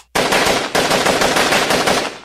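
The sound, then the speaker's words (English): Machine gun suppressive fire rattles in a loud, sustained rapid burst of shots that runs nearly unbroken, with a brief hitch early on before the firing resumes at the same fast rate. “I'll lay down suppressive fire.”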